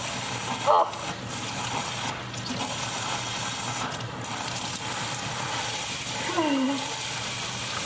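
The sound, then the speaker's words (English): Water runs and splashes at a bathroom sink as someone rinses their head, a continuous broad hiss with a few slightly louder surges. “Because you see, I'm tilting my head down to make sure I don't get water all over the counter, and well, that's what happened.”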